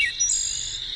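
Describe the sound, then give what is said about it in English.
A wood thrush sings a single brief, high, fluting phrase of clear whistled tones, with only a faint low hum beneath it. “That's the song of the wood thrush.”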